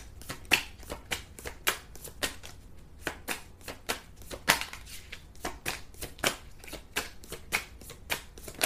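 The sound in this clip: Tarot cards being shuffled and drawn, many crisp, rapid snaps and flicks of card stock in an uneven rhythm, fairly faint and with no voices.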